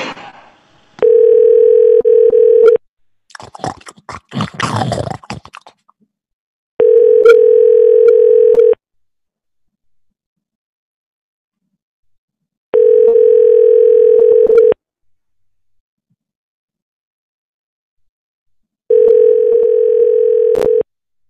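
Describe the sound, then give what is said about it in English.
Telephone line tone after dialing: four steady, evenly pitched tone bursts, each about two seconds long, separated by long silent gaps, with a short burst of crackly noise after the first. “It's dialing.”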